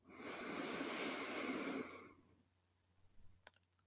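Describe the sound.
A deep breath drawn in through the nose during a guided relaxation breathing exercise: one long, airy inhale of about two seconds, fairly faint, then near-silence with a few soft clicks.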